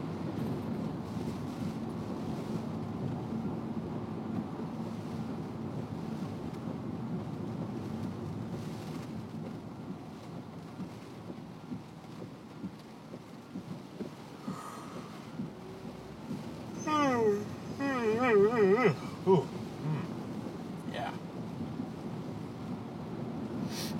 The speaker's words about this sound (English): Flags look like they're gonna rip off the front of this bar right here. It's some serious wind.